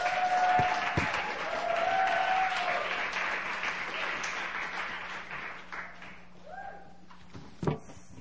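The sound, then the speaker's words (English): Audience applause welcoming a pastor to preach at a Christmas Eve church service: dense, steady clapping that gradually thins and fades toward the end, with a brief thump just before it finishes. “Right now, I want us to put our hands together.”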